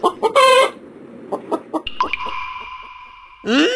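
A chicken clucks in several short, sharp bursts, then gives a longer sustained call and ends with another loud squawk.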